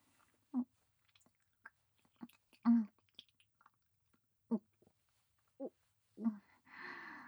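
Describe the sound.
Chewing while eating: a series of soft, wet bites and mouth clicks at irregular intervals, mostly quiet and isolated. A short breathy hiss comes at the end.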